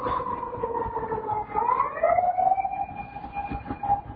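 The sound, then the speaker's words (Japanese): A police car siren wails loud and alone, its tone sweeping in a sustained electronic howl that glides upward partway through before holding at a higher pitch. “救急車 じゃないですね。 パトカーですね。 パトカー。”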